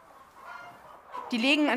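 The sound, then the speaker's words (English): Dual-purpose chickens, kept for both eggs and meat, cluck quietly at first. A louder, tonal call follows near the end. “They're dual-use chickens, yielding both eggs and meat.”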